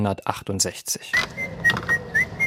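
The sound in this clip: A melody from a film is whistled as a thin, clear tune of a few distinct notes, one sliding upward near the end. A voice speaks just before the whistling begins.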